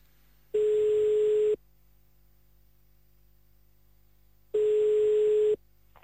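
Ringback tone on a telephone line while calling a caller's mother back: two steady one-second tones at the same pitch, separated by a long quiet pause over faint line hiss, with no voices.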